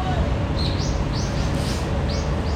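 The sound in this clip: Small birds chirp in a park, giving a few short, high chirps at irregular intervals. They are fairly faint against a loud, steady low rumble from a nearby generator.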